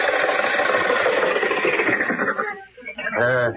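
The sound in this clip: An engine runs with a dense, steady rumbling drone for about two and a half seconds, then thins out and fades as a voice starts talking.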